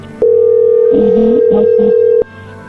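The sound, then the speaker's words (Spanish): A telephone tone signals an incoming call. One steady, mid-pitched tone holds for about two seconds and then cuts off sharply. “A ver, entró ahí la llamada, contéstale tú.”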